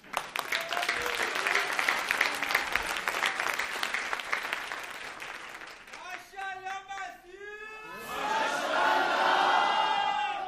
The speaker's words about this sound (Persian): دست بزنید برام.